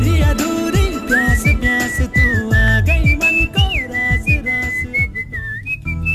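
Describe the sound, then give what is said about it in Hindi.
A person whistles a high, wavering melody with sliding notes, over loud rhythmic music with bass and percussion, with no talking. “कभी ना कभी life में आपने सीटियां जरूर मारी होगी और इन्हीं सीटियों का रोमांस से कोई ना कोई कनेक्शन है”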